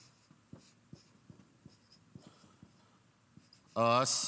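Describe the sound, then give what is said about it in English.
Writing on a board during a lecture: a long series of short, dry strokes taps out an uneven rhythm at low volume, and a loud voice cuts in briefly at the end. “All right? And I'll just go ahead and write it on the board.”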